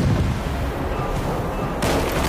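Cannon fire from a ship during an ambush at sea: a dense, steady, rumbling roar of blasts with no separate booms standing out. It grows harsher and brighter near the end.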